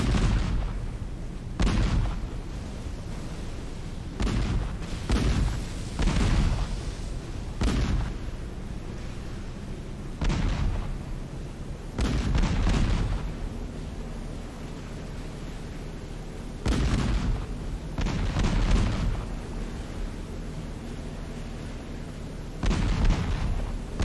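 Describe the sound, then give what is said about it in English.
Naval ship gunfire in a video game, as a vessel circles an enemy ship and fires until it sinks: many loud, booming shots come in irregular bursts, some in quick pairs, over a steady low rumble. “A unit with an attack order will circle the enemy, firing until it sinks.”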